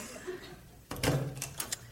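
A back door in the country opens with a sudden clunk and a short rattling scrape, followed by a few softer knocks after a hushed stretch.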